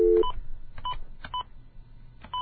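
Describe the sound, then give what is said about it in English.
A telephone number is dialed on a touch-tone keypad. A few short, clear dual-tone beeps are spaced unevenly, mostly half a second or more apart, with no talking. “Well, anyway, I'm going to dial a number.”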